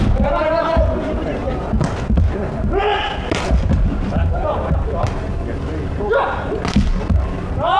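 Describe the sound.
Dull thuds of a ball being served and struck during a match between two city youth teams. A few sharp hits cut through steady crowd noise and continuous talk.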